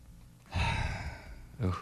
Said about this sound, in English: Is that sound pneumonia? I don't like what I hear. Do it again. I hear a little wheeze in there.